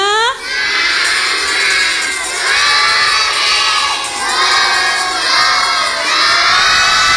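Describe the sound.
A group of children in a studio shout a greeting together: a loud, sustained chorus of cheering voices that rises and dips in a few waves.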